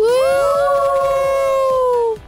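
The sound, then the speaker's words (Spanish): A group of people scream together in one loud, sustained yell lasting about two seconds. The voices slide upward at the start, hold a steady pitch, then cut off abruptly. “¡Qué bonito gritamos, ¿verdad?”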